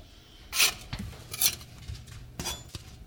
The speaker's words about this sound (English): All right, I'm gonna flip these pitas over. I think it's easier with a spatula than uh, using the peel.